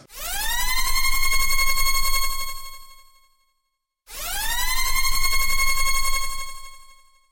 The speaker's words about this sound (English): Sound the spoiler klaxon!